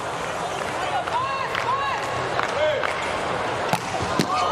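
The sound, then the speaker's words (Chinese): Volleyball serve hit hard for an ace at close to 130 km/h during a match between national teams: a steady crowd din runs throughout, with a couple of sharp smacks near the end. “哇，这个球发出来了，哈内斯发球直接得分，快到130了，这个发球的时速。”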